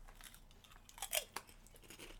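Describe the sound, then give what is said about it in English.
Crunchy chewing of a Thai-spiced potato chip, quiet crisp bites with a couple of sharper crunches in the middle and softer mastication around them, no talking. “It tastes like Thai food. All that stuff. Yeah. It just kind of. Yeah, seems like Thai spices on a potato chip.”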